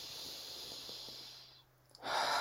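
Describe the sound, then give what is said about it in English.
A big, deep breath taken during a relaxation exercise: a long airy hiss that fades to a brief pause, then a louder breathy rush at the end. “And then just take another big, deep breath.”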